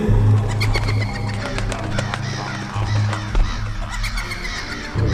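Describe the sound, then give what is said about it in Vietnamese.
A flock of black crows caws as the birds swoop from tree branches down to the ground in a forest, with many harsh calls overlapping above a steady low drone. “Một đàn quạ đen lao từ trên những nhánh cây xuống đất. Chúng nó kêu quang quát”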